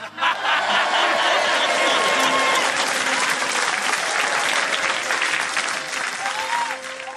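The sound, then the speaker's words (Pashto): An audience claps in applause. The clapping is loud, dense and steady throughout, with no break. “لاسونه ورته وپړکوه.”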